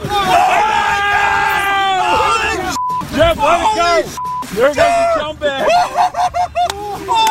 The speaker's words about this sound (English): What are they cheering about?